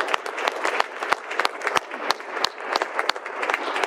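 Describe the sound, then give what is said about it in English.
Audience applause welcomes a guest introduced as King David to a church: many hands clap in a lively, crackling wash with sharp individual claps standing out, sustained at an even level throughout. “We have the privilege of welcoming to our humble church King David, everybody. Let's give him a welcome hand from...”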